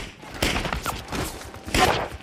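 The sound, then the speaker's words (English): Gunfire in a film scene where soldiers come under fire while running down a street, a few dull, faint bursts of shots with hiss between them. “when the six come under fire. One by one they fall, hit from behind, as they run towards the end of the street.”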